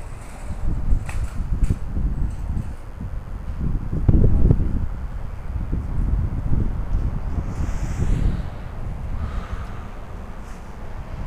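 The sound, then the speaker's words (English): Breezy wind outdoors at night on the south side of Ottawa produces a continuous low rumbling roar of wind buffeting the microphone, swelling and easing throughout with a few stronger gusts. “Nice breezy night out here.”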